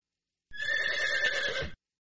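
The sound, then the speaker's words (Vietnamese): A horse whinnies behind a house at a small-town inn: one bright, quavering neigh lasting just over a second, heard alone. “bỗng nhiên nghe thấy tiếng hí của Hắc công tử phía sau nhà.”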